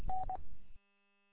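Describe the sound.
Two touch-tone telephone dialing beeps at the same pitch, a longer one and then a short one, over low rumbling noise that cuts off abruptly, leaving near silence.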